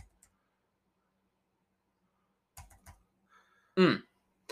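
A few quiet keystrokes on a computer keyboard, set apart by silence, followed by a short, louder vocal sound.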